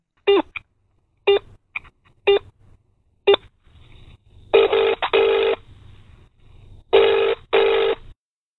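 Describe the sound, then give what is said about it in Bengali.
Telephone ringing on an outgoing call: a series of short, evenly spaced electronic beeps, then two longer buzzing rings separated by silence. “এবার সোজা phone করেই ফেললেন তিনি।”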